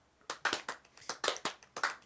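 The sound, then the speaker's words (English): Hand claps: a slow, sparse golf clap, an uneven run of light claps that partly overlap one another, with no voices. “Guys, slow clap. Golf clap.”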